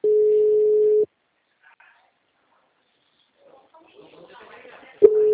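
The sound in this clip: Telephone call tone while dialing a client, a steady low hum lasting about a second, then a quiet gap with faint murmuring voices before the same tone starts again.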